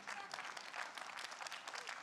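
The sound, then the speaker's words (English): Light applause from a few people clapping in a room at a church service, a thin, steady patter of hand claps that stays quiet throughout. “We got a few clappers in here.”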